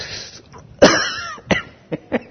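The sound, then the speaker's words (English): A person imitates a smoker's cough during a sermon: one loud, rough burst, followed by a few shorter, choppier coughs trailing off. “First time you see Jesus, you cough smoke in His face.”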